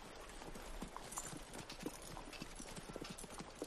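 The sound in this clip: A pony's hooves clip-clop in a steady run of many quick, even beats, faint over a light background hiss.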